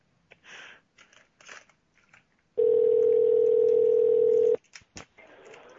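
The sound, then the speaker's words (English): A telephone gives a single steady, mid-pitched electronic beep lasting about two seconds. It is loud against faint clicks and handling noises before and after. “what was up with the beeping phone?”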